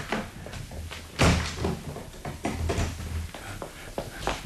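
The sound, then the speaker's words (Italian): A door is shut and locked with a key: one loud thud, then a scattered run of lighter clicks, knocks and rattles. “Presto, chiudete e levate la chiave.”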